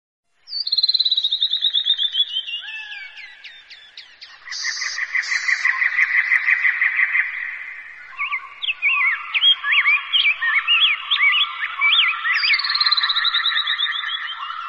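Loud, dense calling of a bird colony flocking back to its nests at dusk in a wetland date-palm forest: continuous chattering with rapid repeated chirps and sharp whistled notes overlapping throughout, no voices.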